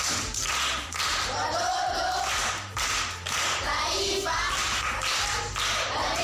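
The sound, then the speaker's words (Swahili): Pupils in a primary school classroom clap for a classmate during a lesson on riddles and proverbs: dense, steady group hand clapping that stays loud for about six seconds with only brief dips. “Makofi kwa mjomba.”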